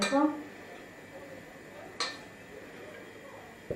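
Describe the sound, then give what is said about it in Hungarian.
A spoon taps and scrapes in a pan as two teaspoons of paprika are stirred into oil, giving a few faint, sparse clicks over a quiet background. “És akkor ebből két teás kanálnyit veszek. Two teaspoons of paprika. És elkeverem benne. I stir it.”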